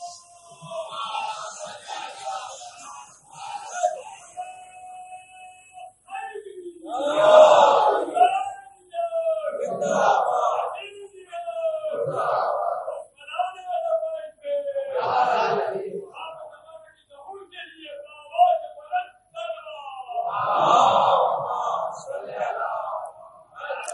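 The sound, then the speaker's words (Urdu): An audience at a Muharram mourning majlis recites salawat aloud in unison, swelling in repeated loud collective bursts separated by short pauses. “ایک اور صلوات پڑھ دیجئے بلند آواز سے۔”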